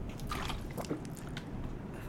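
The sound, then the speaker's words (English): Alkaline water being drunk: soft wet gulps and swallowing squishes sit under a constant hiss, with no talking. “drinking some more of my alkaline water”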